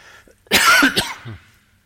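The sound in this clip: Coughing from a tickle in the throat: a short, loud cluster of harsh coughs bursts out after a quiet moment, then trails off into a softer rasp.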